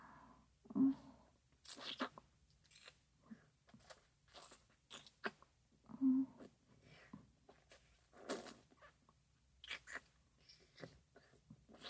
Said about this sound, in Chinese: 在一口吃下去之前，要从前端开始细细品尝才行。